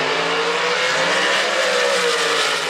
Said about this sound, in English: Our tires are warm. Let's put it in the beams.